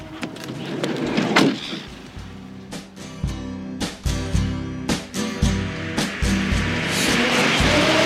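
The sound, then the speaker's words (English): A minivan door opens and people climb back into the vehicle before a road trip: many clunks, thumps and rattles of the door and seats over a steady low hum. “We've got our trusty little minivan here, and we're going to jump back on in.”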